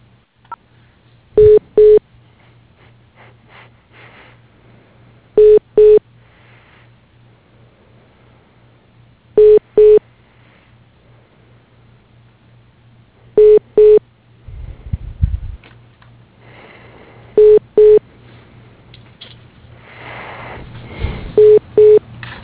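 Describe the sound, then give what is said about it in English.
Telephone keypad tones on an automated phone line sound as six pairs of short, identical beeps at regular intervals over a steady low hum. A rumbling noise rises in the later part. “If you know your party's 3-digit extension, you may dial it now. Otherwise, please dial 0 for customer service or 2 for sales.”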